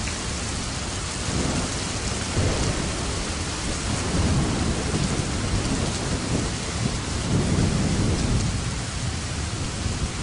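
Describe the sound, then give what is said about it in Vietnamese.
A heavy thunderstorm with wind and rain: a dense, steady roar of pouring rain, with low rolling thunder rumbles swelling and fading beneath it, continuous and loud throughout. “Noãn Tâm chân trần một mạch chạy xuống núi, nước mắt trong cơn điên cuồng của mưa gió bão bùng, không thể nhìn phân biệt đó là nước mắt hay nước mưa”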